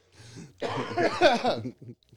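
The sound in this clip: A cough from a tickle in the throat: one rough, sustained burst with a throaty, clearing quality, followed by a short faint trailing sound.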